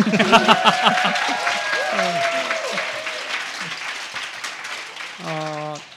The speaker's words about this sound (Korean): 이럴 때 박수 치시.